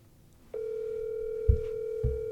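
A phone's ringing tone sounds while someone places a call: a steady, single-pitched electronic tone starts after about half a second and holds unbroken to the end, with two brief low thumps partway through.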